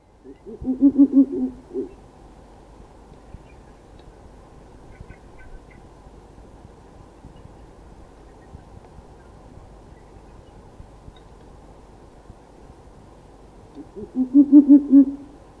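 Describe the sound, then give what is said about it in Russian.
Owl hooting: a short series of pulsed hoots at the start, a long quiet stretch of faint background hiss, then a second similar series at the end. “Сова.”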